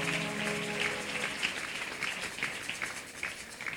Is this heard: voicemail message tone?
no

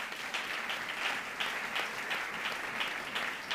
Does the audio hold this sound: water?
no

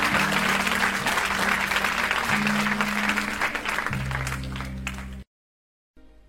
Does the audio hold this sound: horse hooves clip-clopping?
no

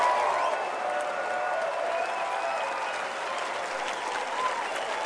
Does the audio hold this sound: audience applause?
yes

